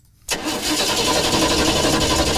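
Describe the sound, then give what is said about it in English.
A car engine catches abruptly after a brief quiet moment, then runs on as a loud, steady, rumbling idle. “With the cooler weather setting in, it's possible that you might find your vehicle is a bit hard to start.”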